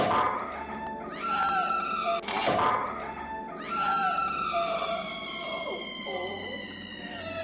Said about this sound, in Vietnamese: Đầu tiên là tiếng mèo kêu